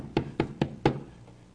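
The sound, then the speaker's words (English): Knocking: four firm, evenly spaced knocks in quick succession, followed by a fading, quiet tail. “I'm knocking. Knocking.”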